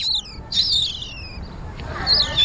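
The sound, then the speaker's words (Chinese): Sparrows chirp near a construction site, with a few short, high, sharp calls scattered over a low rumbling background. “这里面还有3、4群雀呢。”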